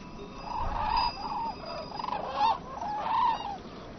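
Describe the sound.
Sacred birds forage for leftover barley in farm fields where pigs break up the soil, giving a series of repeated cackling, honking calls over a steady background hiss.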